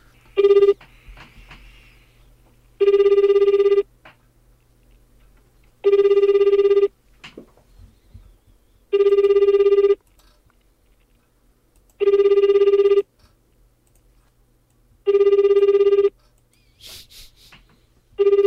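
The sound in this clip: Ringback tone of an outgoing telephone call: five evenly spaced tonal bursts, each about a second long, separated by quiet pauses of roughly two seconds.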